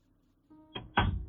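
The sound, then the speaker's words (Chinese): A heavy front door of a house slams shut: two sharp, solid thuds come in quick succession, and the second is louder and rings out briefly. “宋宅的大门“咣”的一声关上”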